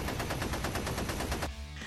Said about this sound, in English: You can see the machine gun shoot get like three shots off